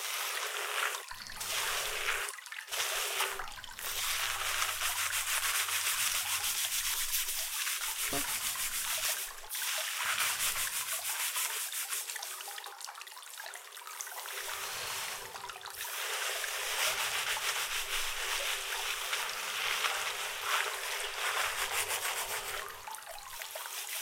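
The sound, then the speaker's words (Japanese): Someone washes and scrubs another person's hair, making a dense, continuous rubbing and scratching sound that holds steady and fairly loud, broken only by a few brief pauses. “人に頭を洗ってもらうなんて想像よりも気持ちいいかでございますよ”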